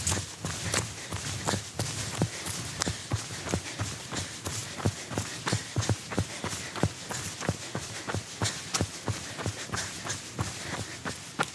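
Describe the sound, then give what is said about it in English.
Running footsteps thud in a quick, steady rhythm during a workout, with many evenly spaced footfalls at a fairly faint level throughout. “A few more seconds of running, and then we are done.”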